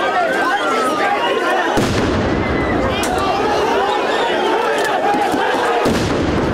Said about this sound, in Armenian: Ոստիկանները պատասխանեցին արցունքաբեր գազի կրակոցներով և սկսեցին առաջ գալ։